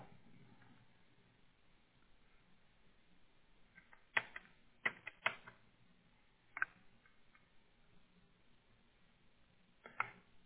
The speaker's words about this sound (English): Let me type that in a little bit better so it looks better.